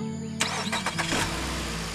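A car engine cranks and starts after a repair, with a few rough bursts of cranking over about a second before it catches. It then settles into a steady, even low running hum with no talk.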